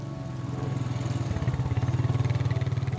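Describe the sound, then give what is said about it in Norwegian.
ATV engines as men drive off on a clear autumn day to gather a scattered reindeer herd: a steady, rhythmically pulsing engine drone that holds at a moderate, even level throughout. “fire mennene setter seg på hver sin ATV og kjører mot hvert sitt område for å samle den spredte reinflokken.”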